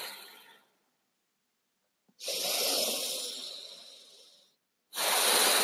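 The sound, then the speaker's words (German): Forceful, deep breathing in and out: long, breathy hisses separated by short silences. One breath fades out at the start, a long one swells and slowly tapers, and another begins at the end. “Und dann nimm jetzt die letzten 3 Atemzüge. Nochmal ganz kraftvoll ein- und ausatmen.”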